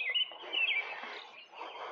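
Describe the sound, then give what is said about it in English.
Birds call to each other in the early morning, with a quick run of high, bright chirps near the start, then softer, scattered twittering over a faint, steady background hiss. “The birds are talking to each other in the morning. They're not flying around.”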